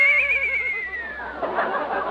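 A horse that pulls a wagon neighs: a high, wavering whinny that slides downward in pitch, then ends in a noisy, breathy snort.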